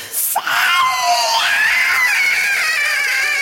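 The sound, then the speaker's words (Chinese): A ghost's loud, harsh scream in a horror story: a brief sharp cry, then one long, high, strained howl held for about three seconds, heard alone. “突然，他嘴里吐出了一大口黑色的液体，大叫了一声”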